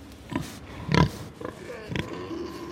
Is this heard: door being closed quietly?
no